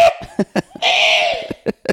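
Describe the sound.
A few short, sharp coughs from a person near a plate of hash browns, quick bursts separated by brief gaps, with a longer sustained voiced sound in the middle.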